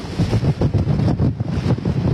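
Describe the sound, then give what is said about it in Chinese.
Typhoon gales roar and huge waves crash against the shore at a harbour pier in Hong Kong. A loud, continuous wash of noise swells in repeated pulsing surges, with no voices. “山竹掀起了狂风巨浪，猛烈地砸向岸边。”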